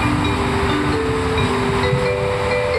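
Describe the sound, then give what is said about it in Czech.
Low rumbling rail ambience inside a main railway station building, a steady hum with faint drawn-out tonal drones throughout and no clear separate events. “Teď už jsme v budově hlavního nádraží.”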